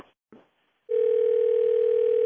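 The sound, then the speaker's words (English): A telephone tone: after a couple of brief, faint sounds, a loud, unbroken mid-pitched electronic tone comes in and holds steadily to the end. “This phone call's for you.”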